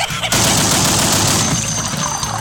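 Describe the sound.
Gunshots burst out after a short quieter moment, a dense, loud rattle of rapid shots that blurs into one continuous crackling roar and holds steady to the end.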